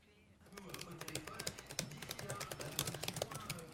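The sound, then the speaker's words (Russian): Typing on a computer keyboard in a bright office: many quick, uneven clicks run in a steady stream for several seconds. “На компьютере парень печатает текст, смотря на экран.”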